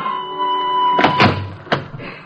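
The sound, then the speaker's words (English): Three knocks on the door of a small New York apartment, heard in a radio drama: three sharp, hollow raps in close succession, the third set slightly apart, following a faint sustained tone. “While in the hall, Tessie, the maid, hurries to answer a knock on the door.”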